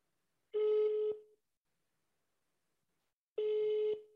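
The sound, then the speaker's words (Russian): A telephone ringback tone sounds as a call rings out: two identical steady, buzzy tones of about half a second each, separated by a long silence. “Звоним Олегу.”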